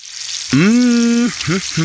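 Bacon sizzles in a frying pan for a breakfast advert, a soft steady hiss running under a loud, drawn-out vocal hum that rises then holds, followed by a couple of short vocal sounds.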